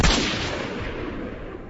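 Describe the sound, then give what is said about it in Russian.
A single loud rifle gunshot fired from a watchtower, with a sharp crack at the start followed by a long, rumbling decay that fills the rest of the moment. “Но прежде чем я услышал выстрел Артема, грохнул с вышки.”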